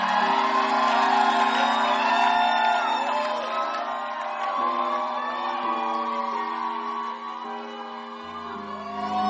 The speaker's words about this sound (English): Why don't you give the Lord a shout of praise for a powerful testimony?